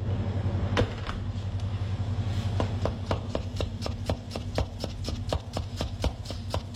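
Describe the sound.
Knife strokes finely chopping an onion for a green papaya salad, a fast, even run of many sharp cutting taps that builds after a few scattered ones, over a steady low hum.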